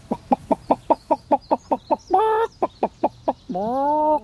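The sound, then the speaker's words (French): A rooster clucks in a quick even series of about a dozen short pulses, broken by two drawn-out harmonic calls, the second longer and rising. “il y a le coq là qui nous surveille. Mais... Il est costaud le coq là.”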